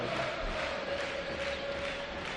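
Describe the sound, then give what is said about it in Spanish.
A football crowd at Mendizorroza roars and cheers for Deportivo Alavés after the final whistle of a 3-1 home win, a dense and steady wall of noise without pauses. “Y el público salta, el público jalea a su equipo.”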